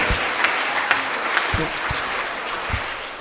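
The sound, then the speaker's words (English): A church audience applauding, a steady, fairly loud wash of clapping from many hands across the whole stretch, with a few voices faintly mixed in. “Now, somebody ought to give God a great big hand.”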